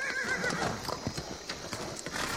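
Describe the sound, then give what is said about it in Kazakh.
A mare whinnies while crossing a river with her chestnut foal. The brief, wavering neigh comes at the start, followed by faint hoof clatter and splashing, all quiet. “Енесі кісінеп, артына қайырылды.”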